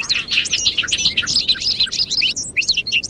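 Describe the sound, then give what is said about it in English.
Bobolinks calling in a large hayfield in western New York in early May, as birds return to nest: many bubbly, tinkling high chirps tumble over one another without pause above a faint low background noise. “We're standing in a large hayfield in western New York State, where bobolinks are returning to nest.”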